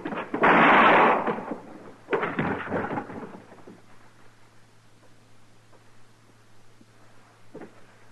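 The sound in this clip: Gunshots ring out as a gun is drawn in a Western showdown against a marshal: two loud, booming blasts with rumbling tails, the first longer, fading into a quiet low hum.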